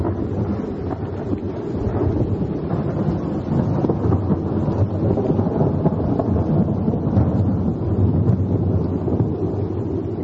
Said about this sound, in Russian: Страшные ночи с громом, молнией, дождем и ветром, которые в народе называют воробьиными.